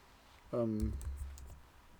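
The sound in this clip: A few soft, quick keystrokes on a computer keyboard, faint and scattered, right after a brief voiced sound.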